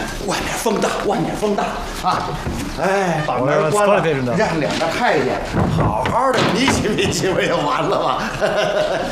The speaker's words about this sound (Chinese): 把门关上。